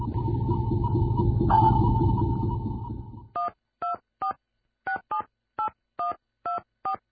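A telephone number being dialed: a steady dial tone with a low hum, then nine short keypad tones in a quick, uneven sequence, each a clean two-note beep separated by silence.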